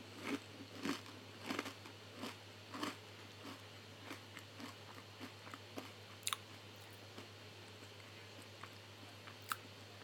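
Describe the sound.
Crunching on a pita chip: many sharp, brittle bites and chews in an uneven rhythm, quiet overall, with a few louder crackles standing out.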